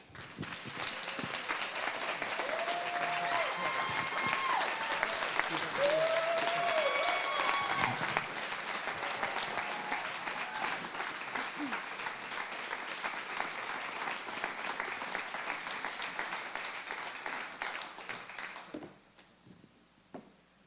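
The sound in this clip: Audience applause welcoming a mother and daughter to the stage as speakers: sustained, full clapping with a few high cheers for about 18 seconds, then dying away quickly.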